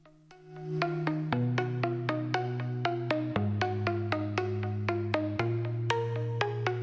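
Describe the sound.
Instrumental opening of a Kazakh song about the homeland. Notes fade in quickly, then a steady melody of struck or plucked tones runs over sustained low bass notes that shift in pitch several times.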